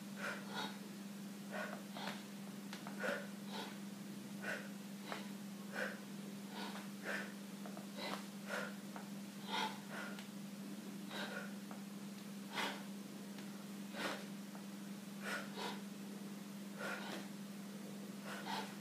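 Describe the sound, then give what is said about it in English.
Sharp breaths forced out during a breathing exercise, repeated in a steady rhythm many times, each a short breathy burst over a constant low hum, with no talking. “sure you let out a little breath on every turn. So here we go. Doesn't matter, by the way, if you want to let that breath in or, or out rather through the nose or through the mouth.”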